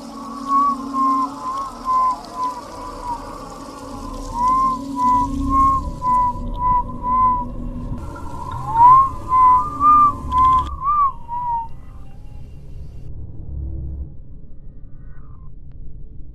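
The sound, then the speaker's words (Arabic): Someone whistles in a dark house believed to be haunted: a wavering melodic tune in repeated phrases of sliding notes over a low rumble. The whistle stops near the end and only the rumble continues. “بعد كده بدأت اسمع صوت حد بيصفر.”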